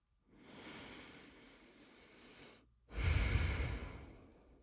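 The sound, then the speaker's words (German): A deep breath: a slow, soft intake of air lasting a couple of seconds, a brief pause, then a louder, fuller exhale. Quiet and alone, with no talking. “Nimm einen tiefen Atemzug ein und aus”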